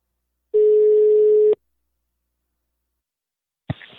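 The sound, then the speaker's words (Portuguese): A telephone call ringing out: one steady, mid-pitched ringback tone lasting about a second, then a long silence before a brief clatter at the very end. “E, e agora eu vou ligar pra Salatiel.”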